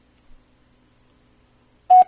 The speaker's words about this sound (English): At the tone, please record your message.